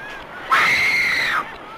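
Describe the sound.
A single sustained, high-pitched scream from someone riding on a cart, loud and steady for about a second with no talk over it, then cutting off sharply.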